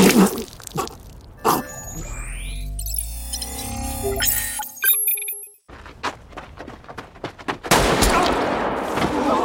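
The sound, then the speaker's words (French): Gunfire in a deadly televised version of a children's red-light-green-light game with a giant motion-detecting robot doll: several sharp bursts of shots cut through a busy mix of tones and noises. “Squid Game, 1, 2 3 soleil avec un robot poupée géant dont les yeux détectent les mouvements et ceux qui bougent prennent immédiatement une balle dans la tête.”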